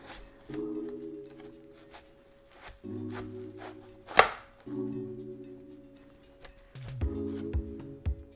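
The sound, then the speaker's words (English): A knife slices through a watermelon on a cutting board with a few firm cuts and one sharp knock in the middle. Steady tonal bands hum underneath the cuts. “I'm going to turn this over so I have a flat, stable piece of watermelon here to slice, and I'm just going to go right through the middle of it again.”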